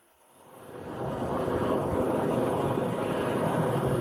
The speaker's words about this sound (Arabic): مولد الرغوة يعمل كما لو كان جديدا.